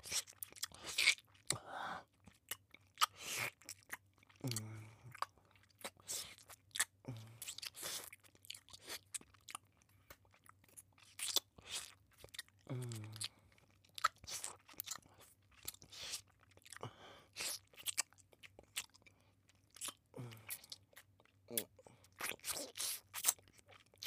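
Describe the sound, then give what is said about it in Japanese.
Crunchy chewing of medicine: many crisp, wet bites in irregular bursts separated by short pauses, fairly loud and with no talking. “ほら、さっさと飲み込め。この薬、あんたも好きだろ。”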